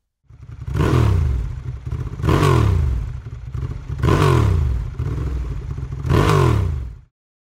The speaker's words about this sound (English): Motorbike.